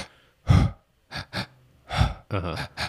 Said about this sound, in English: your first breath is through your stomach and your second breath is to your chest.